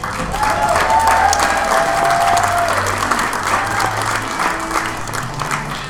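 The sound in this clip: Audience applause welcomes a comedian to the stage at a live comedy show: dense, loud, steady clapping that holds through the whole stretch without fading, with a few crowd voices or a whistle briefly rising above it early on.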